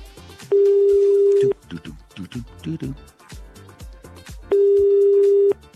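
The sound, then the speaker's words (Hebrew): A telephone rings out while calling a listener, giving two long, steady, mid-pitched ringback tones. People talk in the gap between the tones. “הלו? אני מחייגים, בואו נבדוק.”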